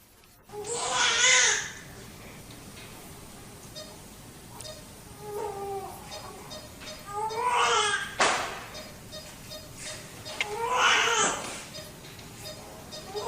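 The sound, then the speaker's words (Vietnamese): A newborn baby cries in thin, plaintive wails, coming in a few separate bursts of rising and falling tone over a quiet background. “Cuối cùng, bên ngoài cũng được nghe tiếng khóc nỉ non của trẻ sơ sinh.”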